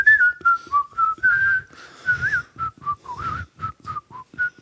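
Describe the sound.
A person whistling a bright melody as a run of many short, clear notes, with brief gaps between phrases and no talk.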